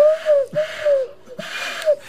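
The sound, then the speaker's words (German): A person imitates a pigeon with two throaty cooing phrases that glide up and then sink in pitch, broken by short breathy gasps between them. “ist hier eine Taube im Studio? Das das gibt's doch nicht.”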